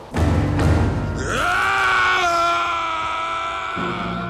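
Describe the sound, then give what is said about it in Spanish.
A scream rises out of a valley that light has laid waste to. It climbs sharply in pitch, then holds a loud, strained, wavering tone for several seconds before slowly fading. “oyó un grito que provenía de la zona del valle que la luz había arrasado.”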